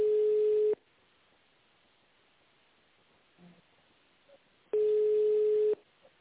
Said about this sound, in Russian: Оставайтесь на линии. Вызов направлен оператору.